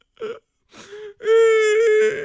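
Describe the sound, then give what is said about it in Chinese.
A storyteller's voice imitates a young woman crying: a few short whimpering sobs, then a long, loud, wavering wail that breaks off at the end. “又哭了”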